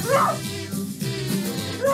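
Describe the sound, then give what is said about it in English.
A person imitates a dog as a stand-up dog character, giving a few yipping barks and whimpering sounds, with the loudest bursts at the start and end and lower vocal noises between. “I don't use words, but I do bark like a regular dog.”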